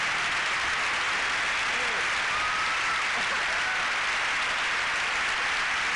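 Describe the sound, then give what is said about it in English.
A studio audience in a 1990s show breaks into applause, many hands clapping in an even, unbroken wash that holds steady for six seconds at a moderate level. “The applause breaks in the 90s were much bigger than they are now, I believe. They all clap at anything.”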